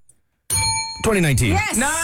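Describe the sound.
A bell dings once during a trivia quiz. Its bright, steady ringing tone sounds after a brief silence, and a voice starts talking over its decay.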